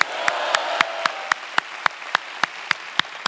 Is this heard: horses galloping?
no